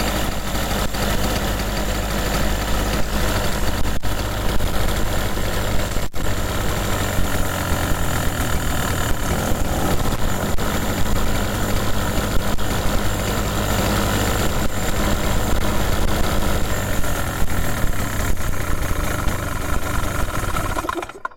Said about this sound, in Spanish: vibra mucho, eso sí. Vibra mucho el motor.